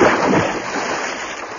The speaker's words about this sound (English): Into the Atlantic we plunged. I swam strongly.